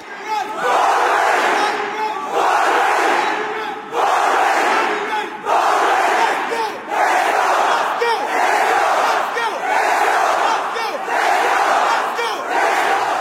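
About a thousand young people, around 25 years old, chant together in loud, repeated rhythmic bursts of shouting, each surge separated by a brief dip, with no other talk.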